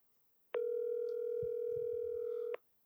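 A single steady ringback tone from a phone call that goes unanswered, holding one even pitch for about two seconds before cutting off, with a faint low rumble beneath it.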